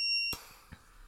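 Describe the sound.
A brief, high electronic beep from an oxygen machine as its on button is pressed, ending in a sharp click, followed by a faint second tap.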